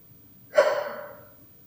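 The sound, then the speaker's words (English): A single deep breath draws in to fill the lungs, a breathy rush that swells quickly and then fades away over under a second against near silence. “So take a few deep breaths, filling your entire lungs, experiencing the each breath throughout the body.”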